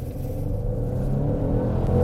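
The engine of a Genesis GV70 SUV, about 4,500 pounds, accelerating: a deep, continuous rumble that swells slightly and steadily louder, with no talking.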